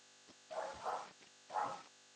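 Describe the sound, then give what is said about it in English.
A dog barking: a few short, muffled barks come in quick succession, quiet and alone, with no talking over them. “I don't know if you can hear that, but my dog just started barking.”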